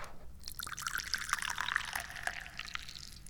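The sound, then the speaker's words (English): The last bit of tea poured into a cup: a thin, trickling splash with scattered drips, fairly quiet, as only a little tea is left. “So let's pour some tea. Ooh, there's not much left.”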